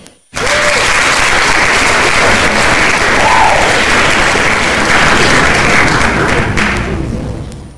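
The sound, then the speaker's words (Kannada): Applause for quiz participants who sent correct answers starts abruptly just after the opening. It holds as a full, even roar of many clapping hands for several seconds, then eases off slightly at the very end. “ಸರಿಯಾದ ಉತ್ತರ ಕಳಿಸಿದ್ದಕ್ಕಾಗಿ ನಿಮಗೆಲ್ಲರಿಗೂ ನಮ್ಮ ಕಡೆಯಿಂದ ಒಂದು ಚಪ್ಪಾಳೆ ಸ್ವೀಕರಿಸಿ.”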